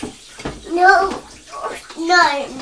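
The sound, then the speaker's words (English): Running tap water as an apple is rinsed under it: a steady rush of water with a child's voice talking over it. “No, I'm just going to rinse the apple under the tap.”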